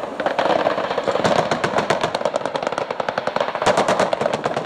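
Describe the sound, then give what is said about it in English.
Rapid automatic gunfire from 20-millimetre rounds fired by tracked fighting vehicles and AK-47 rifles fired by army troops along the Danube banks: many sharp, loud shots in dense, continuous bursts, with no voices. “that's Romanian army forces firing 20-millimeter rounds from tracked fighting vehicles, and Romanian army troops along the banks firing AK-47s”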